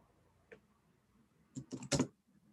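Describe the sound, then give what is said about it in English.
Faint clicks of typing on a computer keyboard, an answer being typed into a chat. One lone keystroke comes first, then a quick cluster of several clicks follows after a short pause, with near silence around them. “Actually, I'll type it as an answer here.”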